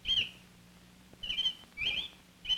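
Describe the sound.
A male robin sings near a nest where the female sits on eggs. Four short, high chirping phrases come with brief pauses between them, fairly faint and alone.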